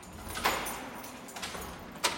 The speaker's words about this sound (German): öffnet eine schmale Tür, gut gesichert mit einem dicken Metallgitter.